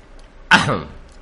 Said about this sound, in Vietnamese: Lão ho khan một tiếng rồi nói: